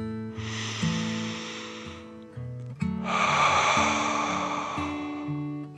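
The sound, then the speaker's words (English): A deep breath in and out, done as a calming 'dragon breath' exercise: a breathy inhale of under two seconds, then a longer, louder hissing exhale, over soft sustained musical notes. “They took another deep dragon breath in and out.”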